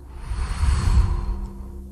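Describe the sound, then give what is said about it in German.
A long breath blown out through the mouth during a guided relaxation exercise: a single soft, breathy whoosh that swells and then fades over about two seconds. “Dann atme einmal durch die Nase ein und mit dem nächsten Ausatmen gibst du genau das frei und pustest es aus deiner Hand raus.”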